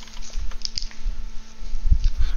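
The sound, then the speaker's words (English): Keyboard typing, with a string of light, quick keystroke clicks at an uneven pace and a few duller taps toward the end. “Type it in for me, please, so I can write it down real quick.”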